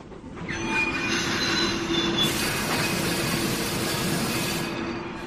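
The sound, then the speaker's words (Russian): Train brakes screeching as a railway carriage lurches: a loud, continuous high metallic squeal over rumbling wheels, steady for the whole stretch with no voices. “Вдруг вагон качнуло, тошнотворно заскрежетали тормоза.”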